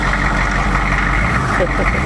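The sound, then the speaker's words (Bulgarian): Engine idling on an unarmed armoured Humvee military vehicle with a 6000 cc, 200-horsepower engine and a weight of 5500 kg, holding a steady, loud, even low rumble without change for the whole stretch. “Е така, следващата машина, която ще видите, това е хама. Ето тя е бронирана.”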